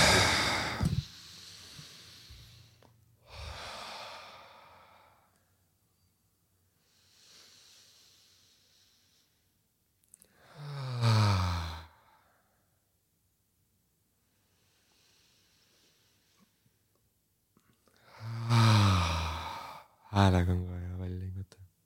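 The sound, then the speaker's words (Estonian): Deep breaths in and out during a relaxation exercise: a few airy inhales and exhales separated by long quiet gaps, some exhales voiced like sighs. “teeme mingi kolm korda sügavat hingamist ka sisse-välja, hingame sisse, hingame välja. hingame sisse ja hingame välja”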